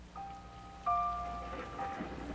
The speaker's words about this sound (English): If you listen closely, you'll hear the sound of a thunderstorm behind the pianist